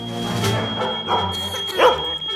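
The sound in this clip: A dog barks a few times amid the chaos of a home kitchen fire, short yelping barks with a piercing smoke alarm tone holding steady underneath throughout.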